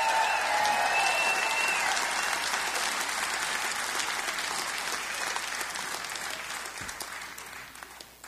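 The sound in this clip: Audience applause after a live music performance: dense, steady clapping from a crowd that gradually thins and softens over about eight seconds.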